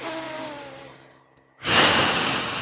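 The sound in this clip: A deep, audible breath demonstrated as a calming vagal breath: one long rushing breath that fades, a brief near-silent pause, then another loud, full rushing breath.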